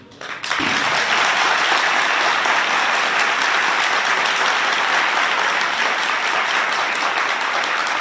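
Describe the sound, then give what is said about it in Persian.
Audience applause: a dense, steady wash of many hands clapping that swells in within the first half second and holds at full strength to the end, loud and continuous. “شما در واقع برای خودتون دست بزنید، برای خودتون دست بزنید، نه برای این حرف.”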